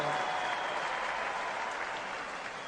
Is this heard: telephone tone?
no